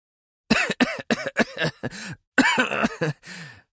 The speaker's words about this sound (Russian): Я закашлялся и выплюнул на грудь кровавую слюну.